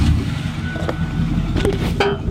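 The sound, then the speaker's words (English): A truck's engine drones steadily while driving, a low rumble with a few faint knocks and bumps over it. “I can sense a gentle excitement as we jump in John's truck.”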